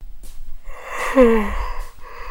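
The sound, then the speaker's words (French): A performer voices a sleepy, drawn-out yawn, a breathy sound that swells into a voiced tone in the middle and then trails off, with soft breaths around it. “arrive en bâillant, tout endormi.”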